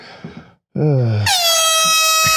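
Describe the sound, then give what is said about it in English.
A single loud air horn blast, a harsh, bright, steady tone held for more than a second to the end. “I just needed something to... Yeah, a little bit of air horn there to help out. A little air horn.”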